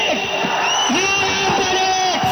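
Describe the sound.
Young students cheer, whoop and shout together to celebrate an education minister's resignation. The dense, steady roar of many voices runs through the whole clip with no pause.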